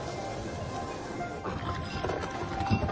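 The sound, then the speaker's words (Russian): Horse hooves and a cart move across the steppe in a funeral procession carrying a body, with a rider following. The clatter and rumble are steady and moderately loud, continuing without a break throughout. “Повозка, на которой лежит тело Ясугея, движется по степи. За ней на коне едет Олуэн, жена Ясугея.”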